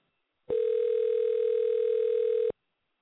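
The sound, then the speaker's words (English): A telephone dial tone: one steady, buzzy, mid-pitched tone held for about two seconds, then cut off, with silence before and after. “Dialing.”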